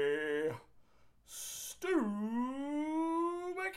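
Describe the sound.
A dog whines and howls: a short whimper, then a long howl that dips low and climbs slowly into a sustained, wavering tone.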